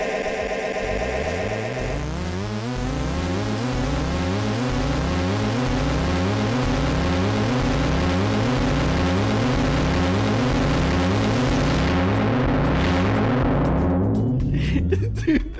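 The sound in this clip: A synthetic rocket sound effect meant to evoke space: a dense, steady roar with a rapidly pulsing, repeating sweep. It holds for a long stretch, then swells into bright hiss before cutting off abruptly.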